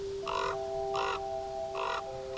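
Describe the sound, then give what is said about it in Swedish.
Ravens perched on a branch cawing: three harsh, evenly pitched caws spaced about half a second to a second apart, over a faint steady hum. “Men på grenen ovanför hans huvud satt hans 2 korpar.”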